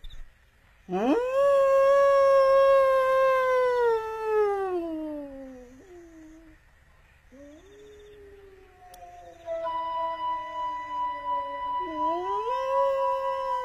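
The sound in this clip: A man's voice imitates a wolf, howling back at it: a long, loud, tonal howl that swoops up sharply, holds steady, then sinks away, followed after a pause by further lower, sustained howls with another upward swell near the end.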